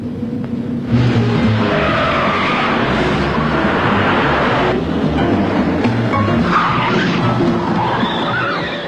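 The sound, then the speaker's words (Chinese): Cars racing in a car chase, a loud, dense roar of engines and road noise that starts about a second in and holds steady to the end, with no talk. “一场精彩的追车表演开始，当然最后的获胜者是耀子和明仓。”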